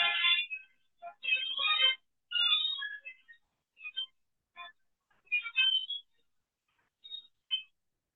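A mobile phone ringtone for an incoming call: a faint electronic melody of short, bright notes in irregular bursts with gaps of silence between them.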